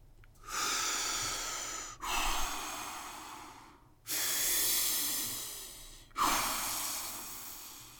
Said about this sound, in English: How about taking some deep breaths?